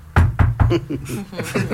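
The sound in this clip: Three quick, solid knocks on a hard surface, evenly spaced and fairly loud, made as answers in a knock-code exchange.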